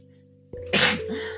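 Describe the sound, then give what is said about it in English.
A single loud sneeze breaks in sharply as a brief, breathy burst, then fades back into a steady low tone that continues underneath. “good Lord, I don't know where these sneezes keep coming from this morning”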